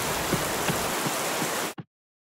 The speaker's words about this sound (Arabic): أوه، المطر ينهمر.